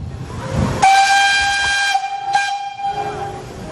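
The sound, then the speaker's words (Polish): Whistle of an OL49 steam locomotive: one long, loud, shrill blast, then a shorter second blast, over a rumbling background. “Znajdujemy się w centrum dowodzenia, czyli na parowozie. Jest to parowóz OL-49”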